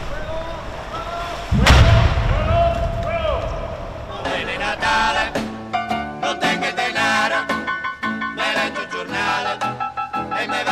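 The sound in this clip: A bomb explosion sound effect: a sudden loud, low boom bursting out, followed by a run of sharp, rhythmic hits.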